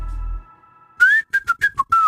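A person whistles into a microphone: after a brief low hum and a quiet pause, six clear, bright whistled notes follow in quick succession, the pitch wavering up and down between them.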